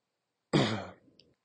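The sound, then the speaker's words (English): Throat clearing after swallowing something wrong: one harsh, forceful burst that fades into a softer, raspy tail. “excuse me, swallowed something wrong.”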